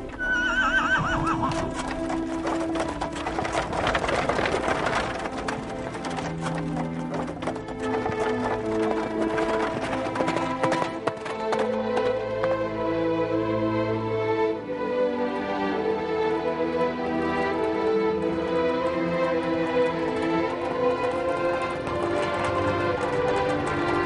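Horses neigh and hooves clip-clop as a chariot pulls away, a loud, sustained stretch of whinnying and hoofbeats lasting over twenty seconds.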